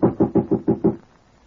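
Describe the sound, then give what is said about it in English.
Six quick, evenly spaced knocks on the door of a typewriting service office, dull and low, followed by silence. “Shall I knock? Yes, son.”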